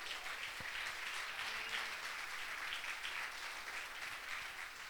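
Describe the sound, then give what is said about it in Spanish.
A church audience applauds during a service, a faint, steady wash of many hands clapping that continues without a break throughout. “Denle hermano el aplauso a Jesucristo.”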